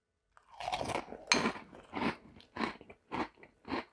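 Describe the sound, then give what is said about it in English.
Crisp, crackling crunches as someone bites into and chews fruity chocolate cereal, a sharp first bite giving way to a steady rhythmic run of loud chewing crunches with no talking. “Our first bite, our first ASMR bite.”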